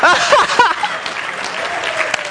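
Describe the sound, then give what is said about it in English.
Audience applause: a few spoken words at the start, then a steady patter of clapping at moderate loudness that carries on to the end. “I'm sorry. She started the clap.”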